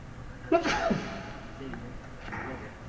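A single sharp sneeze bursts out during an Arabic grammar lesson, followed by faint, low murmuring.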